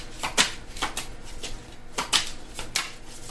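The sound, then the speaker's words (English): Playing cards being handled on a table, with a few crisp papery snaps and flicks over soft rustling. The sound is fairly quiet, and no one talks. “something's telling me to take this card, set it to the side. All right, may I have some cards, please?”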